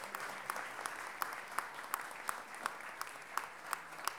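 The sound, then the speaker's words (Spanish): An audience applauds a singer at a gathering devoted to décima song. The clapping is steady and fairly faint, with sharper individual claps standing out at a regular beat throughout. “Nata Ursúa, un aplauso grande”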